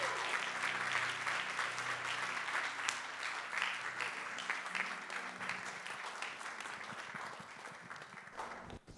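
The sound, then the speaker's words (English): Applause from an audience at a morning church service welcoming a guest speaker: dense, steady clapping that runs continuously and eases slightly toward the end, with no talk over it. “I want you to put your hands together and welcome our brother Benjamin Camp as he comes on this morning.”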